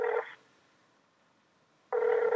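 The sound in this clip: Telephone ringback tone after dialling a call: two steady buzzing tone bursts, one short at the start and another at the end, separated by about one and a half seconds of near silence.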